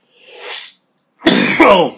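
A person coughs: a soft breathy intake, a brief silence, then one loud, rough, harsh cough burst.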